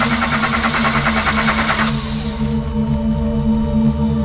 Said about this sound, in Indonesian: Kali ini mobil benar-benar mogok.